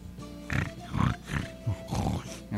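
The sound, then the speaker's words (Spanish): A piglet grunting: several short, low grunts in an irregular series, moderately loud and without speech. “Después llegó gruñendo un cerdito”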